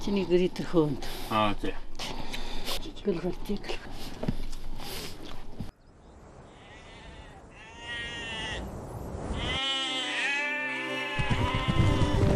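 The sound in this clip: A flock of 800 adult sheep bleats as it is driven to pasture to graze. A voice talks over the opening seconds, then many overlapping bleats of varied pitch follow, loud and continuous.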